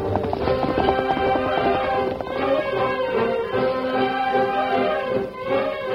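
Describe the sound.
Rapid hoofbeats of a horse galloping away pound in a quick, continuous clip-clop rhythm, loud and steady throughout with no voices.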